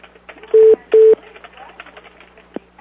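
Phone keypad tones as a number is dialed to make a call: two steady, identical beeps in quick succession, followed by faint background sounds.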